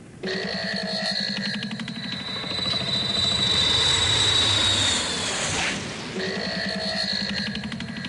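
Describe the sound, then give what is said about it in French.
An airplane engine warming up drones steadily with a piercing high whine, swells briefly into a louder rushing surge, then settles back into the same even drone. “La Tex, tu fais chauffer l'avion, s'il te plaît.”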